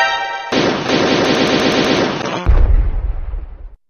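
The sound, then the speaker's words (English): Rapid automatic gunfire rattles in a sustained burst for about two seconds. It breaks off into a louder, deeper blast whose low rumble fades out. “Don't just stand there, shoot!”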